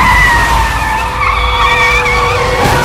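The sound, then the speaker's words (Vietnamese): A car drives past with tires squealing, a loud, steady, high whine that holds for about three seconds over a low engine rumble, with no voices. “anh trông thấy một chiếc xe đi ngang qua.”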